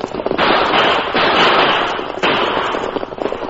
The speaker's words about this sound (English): Them shoot at stage. Them outlaws. So hold up. They won't get away with it. Come on, Silver. Use your guns